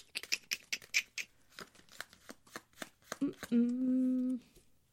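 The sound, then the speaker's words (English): A tarot card is drawn from the deck with many quick, soft flicks and taps of cards in an irregular rhythm. “So then the truth of the situation would be the next card to pull.”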